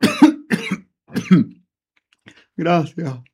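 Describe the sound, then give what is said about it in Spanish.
A person coughs and clears their throat after choking slightly during an interview. There are several short, rough bursts, a pause, a faint catch, then two more harsh coughs at the end. “Disculpen, es que me he atorado un poco”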